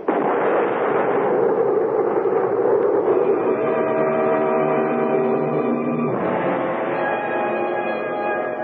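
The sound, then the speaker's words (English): A firing squad's rifle volley at an execution: one loud blast that rolls on as a long, dense rumble, then swells again briefly near the end. “Detail. Ready? Aim. Fire.”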